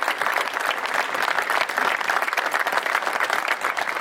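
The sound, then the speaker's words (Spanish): Audience applause at an inauguration ceremony: dense, steady clapping from a crowd, loud and continuous for the whole stretch, with no speech over it. “Realmente pido un aplauso para ellos.”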